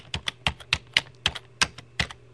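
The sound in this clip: Fingers typing on a computer keyboard: a quick, uneven run of crisp clicking keystrokes, each a sharp tap, heard alone.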